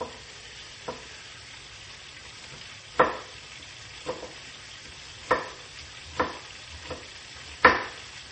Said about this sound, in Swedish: Och medan jag kastar i löken, oj, ja, det blir lite djupare, men det är bra, det är som det ska.